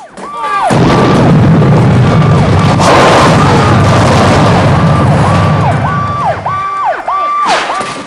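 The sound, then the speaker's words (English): A bomb explodes in a drug lab at a cannery, a loud, deep roaring blast that rumbles on for several seconds, while a wailing alarm repeats over it and continues after the rumble fades. “The bomb goes off in the drug lab, and the cannery workers duck. Kersey makes a run for it, as a second blast blows more workers off their feet.”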